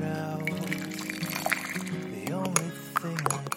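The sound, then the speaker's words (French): Coffee flows in a steady liquid pour and trickle at 8 o'clock in the morning, heard under sustained tonal music. “Il est 8 heures, votre café coule.”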